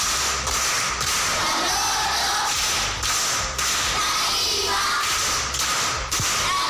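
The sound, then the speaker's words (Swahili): Audience clapping for a grade 7 pupil at a primary school riddle session, a dense and continuous patter of many hands at moderate loudness with a few brief dips. “Makofi kwa mjomba.”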